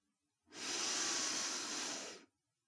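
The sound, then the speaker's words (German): A single deep inhale through the nose: a steady, airy hiss that swells in, holds for nearly two seconds, then cuts off, with quiet before and after. “Wenn du magst, schließe einmal deine Augen und lass uns gemeinsam tief einatmen durch die Nase.”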